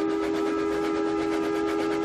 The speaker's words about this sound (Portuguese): E o apito de um terceiro trem iluminado soou.